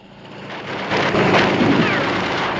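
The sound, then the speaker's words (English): An army helicopter explodes under fire from gun turrets on a rusty offshore platform in a Bond film action scene: a deep rumbling roar swells over the first second, then a heavy sustained blast that slowly eases off. “As an army helicopter is blown up by the gun turrets, Bond drops a rope through the manhole and climbs down it.”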